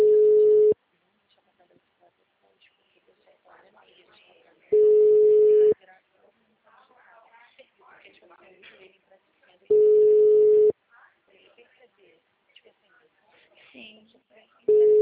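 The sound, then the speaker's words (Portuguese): Telephone ringback tone while calling a client, four steady one-second beeps roughly five seconds apart, with quiet voices talking in the gaps between them. “Tô ligando pro cliente.”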